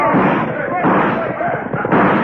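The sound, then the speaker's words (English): Gunfire crackles during an armed raid on a Western town, with dense, overlapping bursts of shots mixed with shouting voices throughout. “And then they swooped down, guns blazing.”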